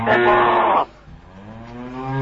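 A cow moos with a loud, low, harmonic bellow lasting under a second, then trails into a quieter drawn-out tone that swells slightly toward the end. No voices are heard.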